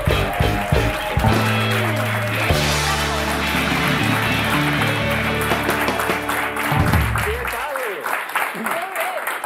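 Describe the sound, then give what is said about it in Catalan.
Loud applause and cheering from an audience welcoming a guest onto a Catalan show. Band music plays along and stops near the end, and voices are heard over the clapping. “Fem molt soroll per rebre la Judit Neddermann!”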